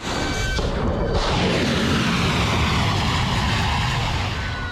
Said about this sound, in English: that was the sound of footage from US Central Command, which said it launched 5 hours of strikes overnight